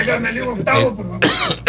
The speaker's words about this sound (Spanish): hasta voy a toser.